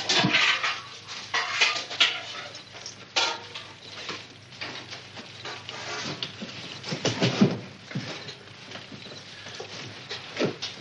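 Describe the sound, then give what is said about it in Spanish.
Clinking and clattering of tableware as a zinc coffee pot is set down and coffee and food are served in a Western film scene. Many irregular, fairly loud knocks and clinks come in quick bursts. “Sara deja una cafetera de zinc y Sam se sienta. Se sirve el café y la comida”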